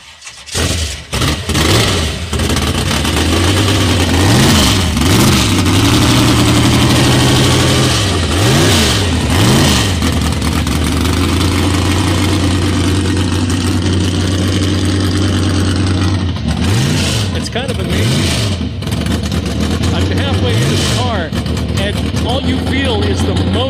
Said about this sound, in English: I worked on it for 2 years and built it into a gasser. Would you mind starting it up for me? I'd love to hear it. Yeah, I could start it up.